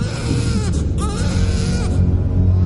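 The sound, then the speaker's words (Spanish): A newborn infant wails loudly while a midwife holds it up, in a 1988 fantasy film scene. The cries are continuous and wavering over a dense background. “Una partera sostiene en alto a un recién nacido.”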